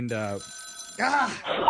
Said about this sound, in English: My grandma's rotary phone is ringing.